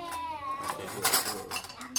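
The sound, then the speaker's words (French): Spoons and dishes clink as they are set out while a tomato cake is served, with several sharp, bright clinks scattered unevenly across the moment under faint talk. “je vais te laisser mettre les cuillères.”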